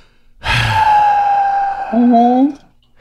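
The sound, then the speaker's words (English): A voice imitating heavy, disappointed breathing: one long, loud, voiced sigh drawn out for about two seconds, dropping to a lower, slightly rising groan near the end. “there was a lot of like heavy breathing, heavy disappointed breathing. I don't know how to properly explain that to you. Just a lot of like,”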